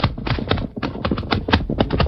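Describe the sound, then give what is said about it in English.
Horses' hooves clip-clop in a Western adventure scene. Many quick, sharp hoof strikes fall in a brisk, uneven rhythm throughout. “Dismount, Tonto. Lead your horse into this cut. Come, Silver. Come, Tonto.”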